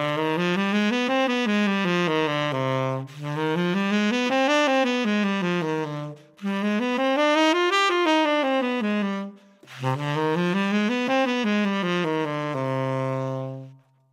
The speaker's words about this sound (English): So I just played four scales up and down, 60 notes, every single note of which was from the C harmonic minor scale.